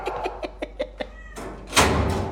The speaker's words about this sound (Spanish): Estos que están aquí son clientes que vinieron a castrar sus gatos. Estos gatitos.